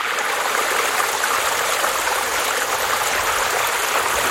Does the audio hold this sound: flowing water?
yes